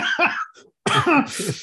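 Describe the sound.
A person coughs loudly and harshly in two bursts of a few coughs each, with a brief silence between them.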